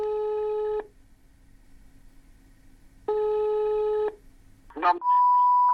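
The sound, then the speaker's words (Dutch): Two long ringback tones sound on a phone line during an outgoing call to a stranger, each steady, about a second long and separated by a pause of roughly two seconds. A brief crackle and a different steady tone follow. “Dan maar willekeurig bellen naar mensen met dezelfde achternaam.”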